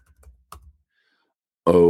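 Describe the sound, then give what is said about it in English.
A few soft keystrokes on a computer keyboard tap out quietly, and then a voice begins to speak. “I'm going to type it in here”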